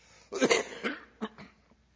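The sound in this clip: Coughing brought on by a pollen allergy: one harsh, raspy burst followed by a few shorter, throaty hacks, then fading into quiet.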